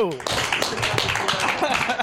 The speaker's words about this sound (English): nice big round of applause for the Jimmy Conrad